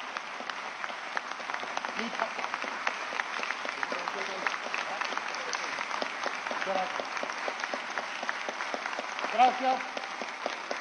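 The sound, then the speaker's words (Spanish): Audience applause at a political speech, many hands clapping in a steady, dense patter across the whole stretch, with voices faintly audible beneath it and surfacing briefly near the end. “Gracias por los aplausos. Gracias por los aplausos.”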